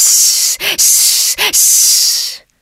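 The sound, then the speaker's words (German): A voice imitates the snakes' hissing call for help, sounded by a black panther in the story. A loud, breathy steady hiss is broken twice by short voiced sounds, then cuts off abruptly. “heulte er fast unbewusst den Hilferuf der Schlangen hinaus in die Nacht, denn er fürchtete, dass Ka im letzten Augenblicke sich davongemacht habe.”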